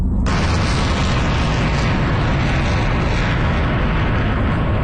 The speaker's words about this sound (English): Video released by Iran's Islamic Revolutionary Guard allegedly shows missiles being launched toward U.S. bases in the Gulf region.